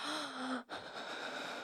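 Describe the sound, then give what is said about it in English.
Heavy breathing after intense exertion: a sharp gasping inhale, a short break, then softer, steady breaths. “let me just catch my breath a little.”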